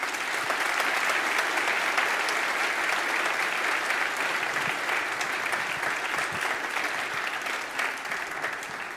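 Steady, dense applause from a church audience welcoming a guest and his parents, a continuous wash of clapping at even loudness for the whole stretch that eases slightly at the very end.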